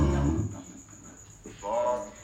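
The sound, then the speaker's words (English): A pig that is just waking up grunts low and heavy in a rumbling burst at the start, followed by softer, rougher snorts and grunts. “My pig's waking up, so you might get a bunch of pig in this one.”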